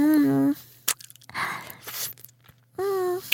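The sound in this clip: Vanilla-chocolate ice cream cone being eaten, with soft wet licking and slurping noises and a small click, framed by two hummed, pleased voiced sounds.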